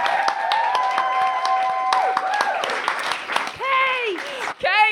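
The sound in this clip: An audience applauds and cheers at a live show as a guest is called up to the mic. Dense clapping runs throughout under a raised speaking voice and whoops, ending in a high excited yell.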